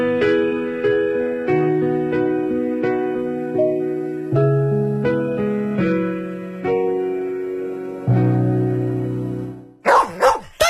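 A dog barks in a few sharp, loud bursts right after about ten seconds of tuneful musical notes.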